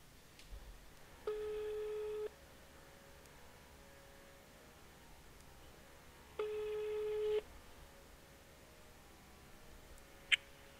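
Telephone ringback tone while placing a call: two steady, even beeps, each lasting about a second, separated by a long quiet gap. The beeps are faint over low background hiss.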